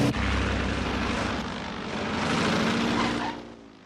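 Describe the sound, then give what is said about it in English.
Propeller engine of a biplane roars steadily through an aerobatic barrel roll. The drone is loud and continuous, swells slightly past the midpoint, then drops away near the end. “The Major grins as he puts the plane into a barrel roll.”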